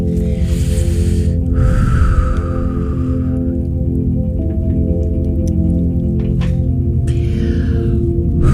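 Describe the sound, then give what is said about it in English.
Slow deep breaths in and out, a few long airy rushes of breath, rising and falling over a steady sustained musical drone. “we're gonna take a few deep breaths in and out.”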